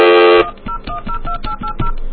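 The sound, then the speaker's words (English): Touch-tone telephone dialing: a steady tone cuts off, then many short dual-tone beeps follow in a quick, even sequence over faint clicks and line noise. “Who owns Canada? All right, hold on. Flash. Dial slowly.”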